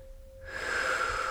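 A slow, deep inhalation during a guided breathing meditation, an airy, steady rush of breath that starts after a short hush and swells gently for about a second, heard alone.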